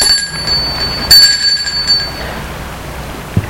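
A bell rings at the front gate of a house, giving a bright, high, sustained ringing tone with a short louder burst partway through before the sound fades.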